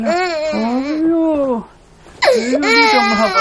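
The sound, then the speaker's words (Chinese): An infant crying in two wavering, voiced stretches separated by a short pause, loud, with the pitch bending up and down. “你是哭啊？ 你怎么哄也不行。”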